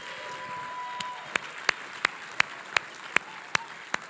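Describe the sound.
A church audience gives soft applause welcoming a speaker to the pulpit. A faint wash of clapping runs under about nine sharp, evenly spaced claps that stand out one by one.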